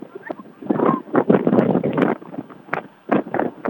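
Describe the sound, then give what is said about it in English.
Gusty wind blows across the field at a high school football game, buffeting the microphone in irregular rumbling bursts with short lulls between them. “And I know the wind blowing in pretty good here across the fields.”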